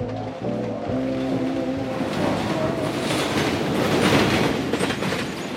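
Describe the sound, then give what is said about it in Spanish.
A train at a railway station, with a steady rumble and clickety-clack of wheels on rails, plus a faint tonal whine early on, all fairly quiet and without voices. “Estación Ojo Caliente del Ferrocarril.”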